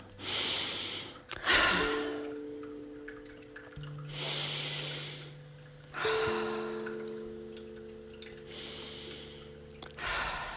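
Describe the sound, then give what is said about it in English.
Slow, quiet cleansing breaths during a guided meditation, with several soft, breathy inhales and exhales separated by pauses over faint sustained tones. “So we're going to begin by just taking three quiet cleansing breaths.”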